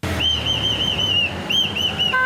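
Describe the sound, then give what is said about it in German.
A security guard blows a whistle at a street crossing in a small Japanese town: a rapid series of many short, shrill blasts, loud and insistent. “Der Wachmann pfeift, was das Zeug hält”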